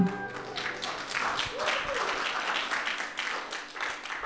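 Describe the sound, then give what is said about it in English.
A church audience claps after singing a hymn, a steady wash of many hands applauding at moderate level for several seconds. “Were you clapping because you made it?”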